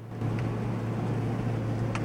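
Steady low engine drone and road rumble from a car being driven, unchanging and even throughout, with no talk.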